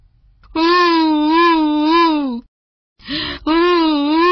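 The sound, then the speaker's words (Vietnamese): A human voice imitates a crocodile pretending to cry, with a long, loud wavering wail, a brief silence, then a shorter sob that breaks into a second wail. “cá sấu bèn giả bộ khóc lóc, van xin”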